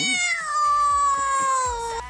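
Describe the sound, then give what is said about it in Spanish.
A cat gives one long, drawn-out meow, loud and steady with a slightly falling tail at the end, over a few faint clicks and taps. “Ahí le está saludando el gatito ya a esta hora.”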